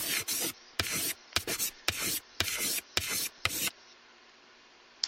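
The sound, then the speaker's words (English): A pen writing on a notepad: several short, scratchy strokes in quick succession, each a dry rubbing rasp, then the writing stops and everything goes quiet. “get out your pen and pad, and we're going to start writing.”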